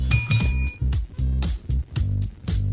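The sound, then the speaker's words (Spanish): Two quick, bright clinks of Riedel wine glasses, their ringing tone lingering briefly before a pulsing rhythmic pattern takes over. “Si un vino tuviera que elegir una copa, esta sería Riedel. ¿Sabías que el vino cambia dependiendo de la copa que lo contiene?”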